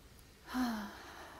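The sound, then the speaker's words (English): A deep breath drawn in, one short, soft inhale that swells and fades in under half a second against a quiet background, with no talk. “I would like all of us to just take a deep breath together.”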